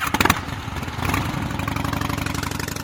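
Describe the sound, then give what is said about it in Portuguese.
Motorcycle engine sound from the Mega Drive motorbike racing game Road Rash: a brief burst of chiptune-like tonal notes, then a buzzy synthesized engine drone with steady, rapid pulsing. “Jogos de moto, cara. Road Rash, grande jogo de Mega Drive.”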